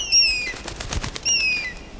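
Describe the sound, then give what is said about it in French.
An eagle flapping its wings, with soft whooshing beats between two high, thin whistling cries that slide slightly downward, fairly faint and heard without any talk. “Mais c'est l'aigle de Tétia. Comment ça se fait qu'il est là?”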